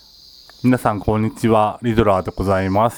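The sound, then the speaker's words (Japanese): Cicadas sing in summer heat, a steady high-pitched buzzing drone that runs unbroken through the whole clip beneath a person's speech. “今セミが鳴いてますね。 入ってるのかな、この音源に。”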